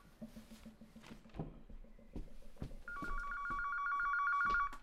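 A telephone rings, a steady bright electronic trill that starts partway through and sustains loudly for about two seconds, preceded by softer, muffled background sounds with no talking.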